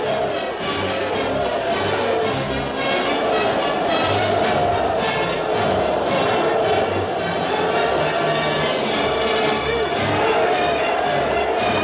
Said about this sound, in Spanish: Los ciudadanos lo vitorean felizmente.